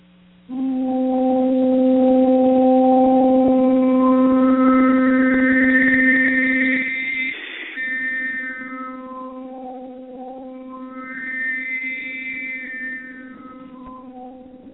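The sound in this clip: Overtone singing: one low sustained sung note on an 'ooh' vowel, with soft bright harmonics above it that sweep upward and drift back down as the vowel shifts, a steady drone with no other sound.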